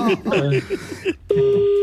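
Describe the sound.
A telephone tone from a caller's phone on the line: a steady, mid-pitched electronic tone sets in abruptly and holds after a stretch of voices talking.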